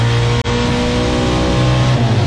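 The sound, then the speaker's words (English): A race car engine roars at high revs, loud and sustained, with a sharp momentary cut near the start as it shifts gear before the drone resumes. “he's just sending you videos of other random people racing cars”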